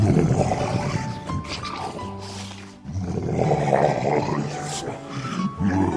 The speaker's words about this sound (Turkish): Aslan acıdan kükreyip yeri göğü inletmeye başlamış.